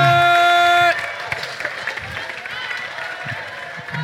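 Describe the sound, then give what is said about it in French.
Applause from an audience at a pitch-contest event breaks out right after a brief sustained musical chord, settling into a steady wash of many hands clapping, with crowd noise mixed in. “On peut l'applaudir hein Bah oui, applaudissez, applaudissez s'il vous”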